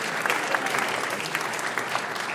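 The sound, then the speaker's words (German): Applause from an audience at a folk musicians' concert before a polka, a steady, dense patter of many hands clapping at even loudness throughout, with no talk. “das hat sich einen extra Applaus verdient”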